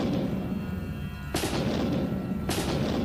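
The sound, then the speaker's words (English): Soldiers guarding a public building fire their guns during the Boston Massacre: two sharp, loud reports about a second apart cut through a steady, noisy background. “They fired their guns.”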